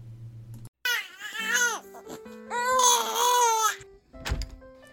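A baby cries while refusing a pacifier, two long wailing bouts with rising and falling pitch, loud and insistent, separated by short gasps and whimpers.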